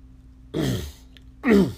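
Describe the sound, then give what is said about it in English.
Someone clears their throat in two short, rough bursts, a gravelly rasp followed by a louder, fuller one, alone with a faint background hum. “Excuse me. Got something caught in my throat.”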